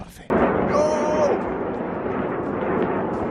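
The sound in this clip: Iron Dome interceptor missiles launching during a rocket barrage on Jerusalem, heard as a sudden, loud, broad roaring whoosh that cuts in and holds steady. Thin whistling tones ride on top early on.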